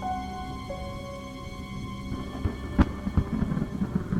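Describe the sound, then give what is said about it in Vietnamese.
Thunder rumbles in a storm beneath a steady tonal hum, with a sharp crack and a few rolling bursts in the second half. “Tiếng sấm rền vang, từng ánh chớp lóe lên sáng trưng cả bầu trời”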